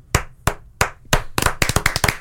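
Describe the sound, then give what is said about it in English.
A round of applause: a few sharp, evenly spaced claps that quicken into faster, denser clapping, loud and without voices. “And for that, he gets a...”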